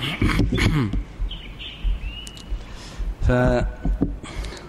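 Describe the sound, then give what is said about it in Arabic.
Sparrows chirp faintly, with a few thin, high tweets scattered under and between stretches of a person talking. “هذا صوت العصافير.”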